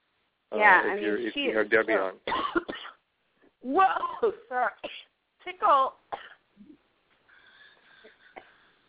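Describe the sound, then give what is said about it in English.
A coughing fit from a tickle in the throat: a run of harsh coughs and throat clearing with strained, voiced gasps in between, then a quieter tail. “Yeah, man, I just got a tickle in my throat, and that just took over.”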